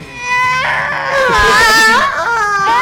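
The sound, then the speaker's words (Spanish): Someone crying: a loud, continuous wailing sob with a wavering, trembling pitch that swells and dips for a few seconds without a break. “Ya está llorando. No llore.”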